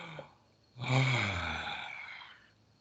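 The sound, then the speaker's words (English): A deep breath, taken during a practice to lift out of dullness: one long, loud breath swells in quickly, then fades slowly over about two seconds, heard alone without talk. “And the easy way to do it is by taking a deep breath.”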